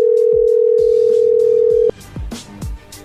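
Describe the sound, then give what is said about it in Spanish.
A telephone dial tone hums steadily and loud, then cuts off and gives way to a few short dialing tones and clicks as the line is dialed again after a hang-up. “Oh, ya colgó, ¿verdad? Ya, y se está marcando otra vez.”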